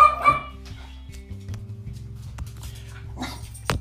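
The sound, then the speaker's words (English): Dogs bark while running around inside a house: a few sharp barks at the start and another burst near the end, with quieter yips and movement between. “Sorry if you hear the dogs barking. If you're listeners of this podcast before, this is probably a message you've heard me say before. They're running around our house while we're recording this.”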